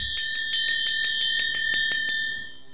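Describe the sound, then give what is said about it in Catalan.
A small bell rung rapidly, many quick bright strikes in an even rhythm with a sustained metallic ring between them, fading out at the end with no voices. “Primera campana.”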